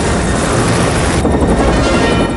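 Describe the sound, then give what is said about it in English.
A helicopter hovers outside a building, giving a steady, loud rotor and engine roar that holds without a break and has no voices over it. “A helicopter hovers into view through the glass.”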